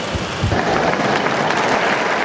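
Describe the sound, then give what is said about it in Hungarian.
Pilgrims in the square applaud Pope Francis, a dense, even wash of clapping that sounds almost like heavy rain and stays loud throughout. “A mai napon is a téren jelenlevő zarándokok tapssal fejezik ki köszönetüket, hálájukat Ferenc pápának.”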